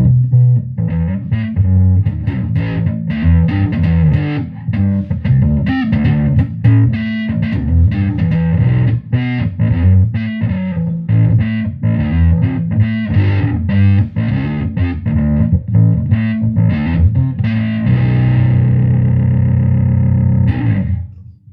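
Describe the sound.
Thick, distorted Moog synthesizer tones play a loud, busy bass-heavy line throughout, settling into a sustained held note near the end.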